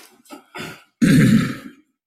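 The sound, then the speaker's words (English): A woman clears her throat: a couple of short, breathy grunts lead into one longer, louder rasping clear, then silence. “cleared her throat as if to start speaking, and she didn't.”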